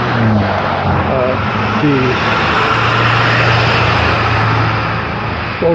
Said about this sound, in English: hello vehicles, come right by. Instead of going by, running me over, I suppose.